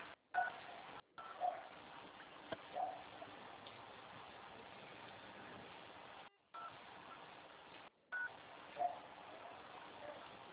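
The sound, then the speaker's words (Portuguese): Telephone keypad tones while transferring a call: a few brief, faint beeps over a steady low hiss, with short gaps of silence between stretches. “Deixa eu tô tentando transferir a ligação, não tá aí?”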